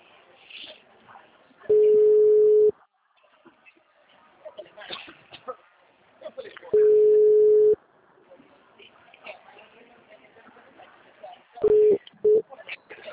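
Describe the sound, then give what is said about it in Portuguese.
Ringing tones of a phone call that goes unanswered: three long, steady mid-pitched beeps spaced about five seconds apart, the third broken short, with quiet talk in the gaps between them. “Não atende, não atende. Fazer ligação.”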